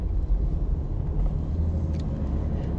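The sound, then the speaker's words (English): Steady low engine rumble from inside a moving car, a dense, even drone that holds for the whole stretch with no voices over it. “Well, I can't bow my head when I'm driving, but bow your head, bow your head, and I'm gonna pray.”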